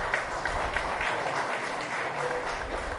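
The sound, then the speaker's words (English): Applause from a live audience at a fado concert in an institute hall, a dense steady patter of many hands clapping at an even level throughout. “Loud applause for them, please.”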